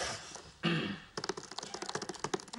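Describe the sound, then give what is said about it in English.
Rapid typing of commands on a laptop keyboard: many quick, irregular keystrokes clatter along after a brief thump and some noise, with no voices. “Howard types in commands on his laptop.”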